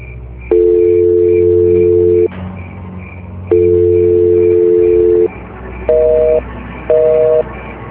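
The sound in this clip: A busy signal from a phone call that fails to connect to a switched-off phone: two long steady tones, then two shorter beeps, over a low background hum.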